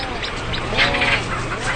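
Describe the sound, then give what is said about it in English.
Storm petrels squawk at a seabird colony, their harsh, overlapping calls forming a dense, steady chorus. “they pretty quickly get drowned out by storm petrels. So that's the ones that go doo-doo-doo-doo and are squawking.”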